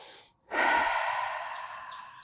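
One deep, calming breath taken before an exam starts abruptly as a loud, airy rush, then fades slowly.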